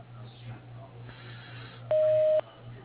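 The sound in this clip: A voicemail beep tone: one steady, mid-pitched electronic beep lasting about half a second. It sounds over a faint phone-line hiss.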